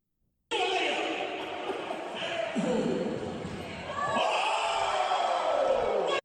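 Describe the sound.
A crowd at a middle school basketball game groans in disappointment, a dense, loud mass of mixed voices that runs continuously and swells again toward the end.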